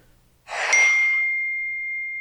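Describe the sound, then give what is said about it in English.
A mobile phone notification rings out as a single bright ding with a sharp attack and a long, steady tone that lingers and fades only slightly over about two seconds, heard on its own with no talking. “Is that my phone? That was my phone.”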